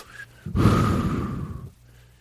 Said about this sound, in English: Okay, take a deep breath.